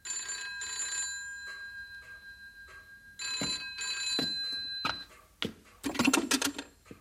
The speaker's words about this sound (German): Donnerwetter. Das Telefon.